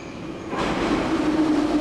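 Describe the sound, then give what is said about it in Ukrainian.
A Kharkiv underground metro train rumbles in a steady broad roar that swells after a slightly quieter start, with a thin whining tone running through the noise. No voices are heard. “Щотижня ми вирушаємо у подорож. Інколи це кілька станцій під землею по Харкову.”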